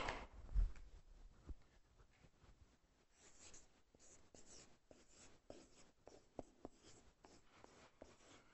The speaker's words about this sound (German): Ich schreibe es auf.